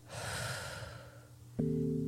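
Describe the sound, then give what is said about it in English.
Slow, deep breath drawn during a guided relaxation exercise, heard as one long soft airy rush. Near its end a steady low hum sets in and continues alone. “I want you to take 3 deep breaths with me again to bring you back into the room. Breathe in and out.”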